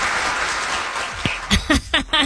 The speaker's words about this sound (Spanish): ¡Aplausos! ¡Aplausos!